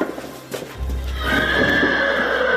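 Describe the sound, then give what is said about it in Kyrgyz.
A horse neighs among horses gathered at one spot. In the second half a drawn-out, high-pitched whinny rises clearly above a low, steady background rumble. “Аттарды ушул жерге чогултуп атайын бир жерге.”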